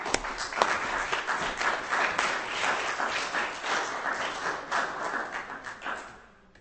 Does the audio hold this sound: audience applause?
yes